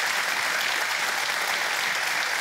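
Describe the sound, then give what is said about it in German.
Applause on a bingo show, a steady and dense wash of many hands clapping that holds at an even, strong level throughout. “Dann freue ich mich auf Sie und der Applaus geht zu Ihnen nach Bohmte.”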